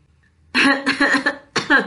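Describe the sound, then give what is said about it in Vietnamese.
Dry, racking coughing in a violent fit: a quick run of harsh bursts in two clusters with a short gap between, loud and with no other sound. “Thiệu Vấn ho khan đến tê tâm liệt phế”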